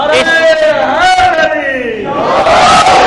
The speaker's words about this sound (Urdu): ایسا نہیں ماشاءاللہ نعرہ حیدری تو بلند کیا، لیکن دائیں ہاتھ کو فضا میں بلند کرنا ہوگا